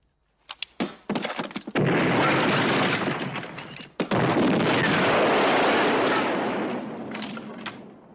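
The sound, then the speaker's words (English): Grenade explosions tear through a hut's walls: a few sharp bangs give way to a loud, sustained roaring blast, which briefly dips, surges again and then slowly tapers off. “Mazzilli and Braddock prep grenades, pull the pins, and lob them onto the walkway.”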